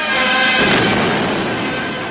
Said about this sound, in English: USS Savannah sustains a direct hit from a bomb.